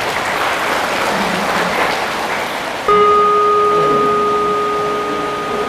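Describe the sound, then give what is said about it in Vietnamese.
Loud, dense clapping from a group of children for about three seconds, then the applause fades into a steady electronic tone that holds to the end. “Nếu được thì các con hãy cho một đàn vỗ tay thật lớn nào.”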